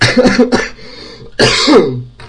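Loud, harsh coughing comes in two clusters: a quick run of rough coughs, a short pause, then another strained, throaty cough that fades out.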